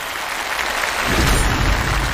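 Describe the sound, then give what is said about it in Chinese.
Audience applause breaks out after a quiz answer is confirmed as correct, a dense hiss of clapping hands that swells louder about halfway through. “回答正确，掌声鼓励。”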